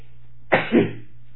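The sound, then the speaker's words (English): A single sneeze, a sharp two-part burst with a quick catch and a forceful release, loud and alone against a quiet background. “I was looking for, I got to sneeze.”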